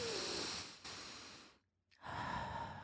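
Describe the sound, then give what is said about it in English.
A slow, deep human breath: a long, airy stretch of breathing noise, a brief silent pause, then another breath of similar airy texture. The breathing is faint and alone. “Take a deep breath. And everyone do that with me right now.”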